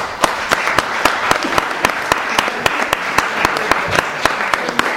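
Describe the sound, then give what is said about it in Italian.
Audience applause at an evening lecture: steady, dense clapping with sharp individual claps standing out throughout, fairly loud and sustained. “quale prego di fare un bel applauso”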